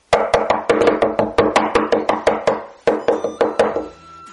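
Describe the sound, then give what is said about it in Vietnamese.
Someone knocks on a door in a quick, even series of sharp raps, then pauses briefly and knocks a few more times. The knocks are loud and clear, with no talk. “Lâm Tư Hàn liền bị một trận tiếng đập cửa cộc cộc đánh thức”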